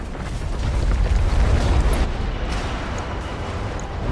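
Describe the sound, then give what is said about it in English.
Dense, continuous roar of weapons fire and blasts as a mech attacks an enemy Wolverine WVR-6R mech in a video game, with lasers and missiles in the volley; loud and steady throughout, with no talk. “So we're gonna start shooting at that Wolverine first.”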